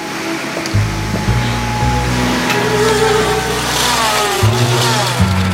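Vacuum cleaner pushed across a floor, a loud steady motor drone with a broad whooshing hiss and low humming tones that shift in steps as it moves, with no voices.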